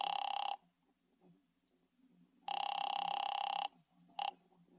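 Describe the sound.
A telephone ringing at a garden supply business, with two long buzzing, warbling rings separated by a quiet gap, then the brief start of a third ring.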